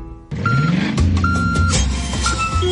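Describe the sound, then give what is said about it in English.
Reversing beeps from a truck making a delivery: a few steady, mid-pitched electronic beeps sounding over a loud, continuous engine rumble. “Can you hear that? That's the sound of truckloads of new entertainment being delivered on Foxtel.”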